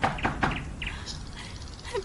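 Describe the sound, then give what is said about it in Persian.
Caged canaries chirping in a few short, bright, high tweets scattered across a faint, low background hum. “میدونم به شادی نوک به ارزن و آب نمیزنید، میدونم تو این قفس زندونی هستی. قناریا،”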